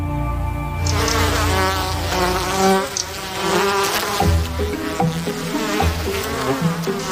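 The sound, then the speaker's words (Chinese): A swarm of bees, hundreds of them rising suddenly from the ground in the desert, makes a dense, continuous buzzing that stays loud and steady for the whole stretch with no breaks. “蜜蜂成群结队的蜂拥而至，不知道是从哪儿冒出来的，成百上千”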